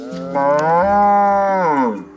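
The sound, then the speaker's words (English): Ankole cattle mooing: one long, loud, drawn-out moo with a rich, throaty tone, heard alone without voices or other noise. “He and his family have raised Ankole cattle here for generations.”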